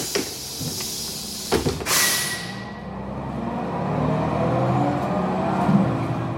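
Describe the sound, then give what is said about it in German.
Passengers board a bus: a few clunks, then a sharp burst of hiss as the door works, followed by a steady, low engine rumble. “Wir zeigten unsere Tickets vor und stiegen in den Bus.”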